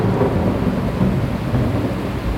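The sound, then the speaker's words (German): Thunder rolls through a heavy tropical rainstorm over an Amazon rainforest river at night, a loud, continuous low rumble mixed with dense rain noise, without clearly separate cracks or any talking. “Schmetternde Donnerschläge lassen das Schiff erzittern”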